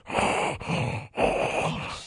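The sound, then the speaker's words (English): A voice imitates labored, wheezy breathing during an allergic reaction: a few long, raspy breaths with short gaps between them, fairly loud and alone. “my breathing was, it sounded like this.”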